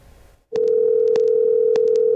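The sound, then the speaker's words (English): A telephone dial tone sounds while a call is placed: after a brief faint noise, a loud steady hum starts abruptly and holds without a break, with a few faint short clicks over it. “We're going to call Hudson Standish here live on Tep and Step. Let's see if this works. It's very loud.”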